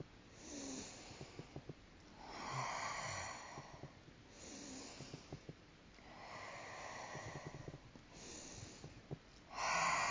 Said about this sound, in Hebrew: נשיפה, בלי הפסקה בין שאיפה לנשיפה. שאיפה, נשיפה.